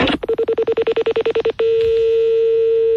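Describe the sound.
Telephone number dialed on a touch-tone keypad: a rapid, even run of many short beeping tones. A steady continuous tone follows and holds to the end.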